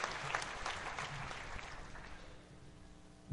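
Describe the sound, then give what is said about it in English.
Audience applause for the helpers who ran a dunk tank, many hands clapping in a soft, even wash that gradually thins and quiets toward the end. “I'd like the guys and the gals who came out and helped me run the dunk tank this year, please stand up and take a round of applause.”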